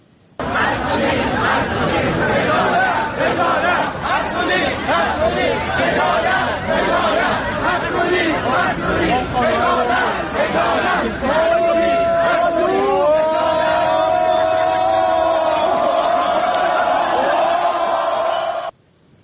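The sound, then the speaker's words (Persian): Amirkabir (Polytechnic) University students march and protest the campus cafeteria food and newly charged services. Dense crowd chatter and shouting run loud and continuous throughout, with longer sustained vocal tones emerging in the latter half. “همچنین دانشجویان دانشگاه امیرکبیر یا پلی‌تکنیک هم در اعتراض به وضعیت قضای سلف دانشگاه و پولی شدن خدمات دست به تجمع اعتراض و راهپیمایی زدند.”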